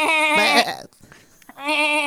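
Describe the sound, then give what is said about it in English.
A human voice imitates goats bleating at a campsite: two loud, wavering, nasal bleats separated by a short breathy pause. “And we're like, who the fuck goes camping with their goats?”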